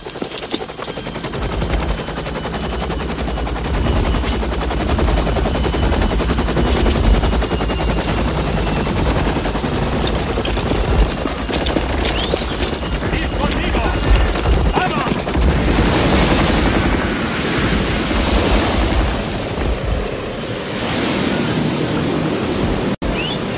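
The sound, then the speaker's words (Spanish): Two-metre ocean waves break on both sides in a loud, continuous roar of crashing surf, with surges of rushing water that swell and fade for over twenty seconds. “¡Las olas! Yeah. Fíjate, rompen a un lado y al otro. ¡Mira, olas de 2 metros!”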